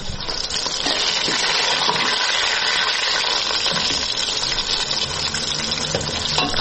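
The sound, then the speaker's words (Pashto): Onions and meat sizzle in a pan while being fried for qorma. The dense, hissing crackle holds steady and level throughout, and no voices are heard. “اوس پیاز سره کړی اوس په غوښه اچوم قورمه پخوم”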